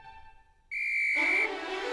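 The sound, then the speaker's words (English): A snowman in a waistcoat and hat blows a whistle to start a snow race: one sharp, steady, high-pitched blast lasting under a second, then a lower sustained tone. “A snowman in a waistcoat and hat blows a whistle for the start of the race.”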